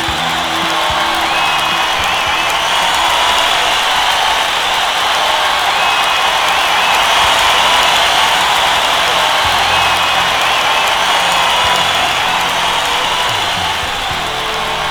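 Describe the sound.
Crowd cheering and applause, a dense steady roar of many voices and clapping that holds at an even, loud level for the whole stretch, with no separate talk over it.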